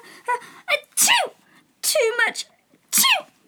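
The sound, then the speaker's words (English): A voice imitates a few sneezes caused by too much pepper in the air of a smoky kitchen where soup is cooking. Sharp, hissing bursts are mixed with strained vocal sounds, and each sneeze is loud and separated by brief pauses. “said Alice to herself, as well as she could for sneezing. There was certainly too much of it in the air. Even the Duchess sneezed occasionally.”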